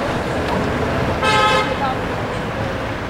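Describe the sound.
Street traffic at a busy city square, a steady wash of road noise with a short car horn toot in the middle.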